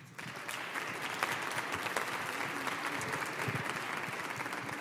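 An audience at a college chapel service applauds to welcome a guest reverend, producing a fairly soft but steady patter of many hands clapping for about five seconds, with individual claps popping out of the even wash.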